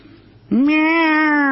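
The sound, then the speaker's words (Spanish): A person imitates a cat with a single loud, drawn-out meow that rises briefly and then holds a steady pitch, after about half a second of faint background. “Yo puedo imitar gatos.”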